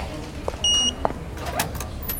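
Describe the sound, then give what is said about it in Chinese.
A short electronic beep from a staff access card reader unlocking a door, followed by a faint click, against a low background hum. “凡凡，用你的工卡给我开一下门。”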